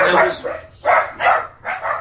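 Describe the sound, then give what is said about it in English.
Puppies barking in a quick run of rough, yappy bursts, loud and close together with brief gaps between them. “That's our puppies there.”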